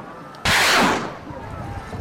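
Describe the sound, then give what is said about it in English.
A single loud blast of artillery fire sounds in fighting between Peshmerga and Iraqi forces near Kirkuk. It bursts out abruptly, rings for about half a second, then fades into a rough, rumbling tail. “Kurdish fighters known as the Peshmerga exchanging artillery and machine gun fire with the Iraqi armed forces.”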